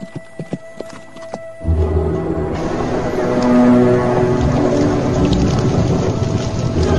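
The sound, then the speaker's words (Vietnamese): Galloping horse spurred on in a chase: a few sharp, separate knocks at the start, then a dense, loud, rumbling clatter that swells and continues steadily to the end. “Thủy Đại dục ngựa ra sức đuổi.”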